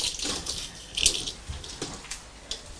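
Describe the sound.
Water splashing and swishing in a sink as plates are washed up, a steady run of irregular wet sounds with a few louder splashes and no voices.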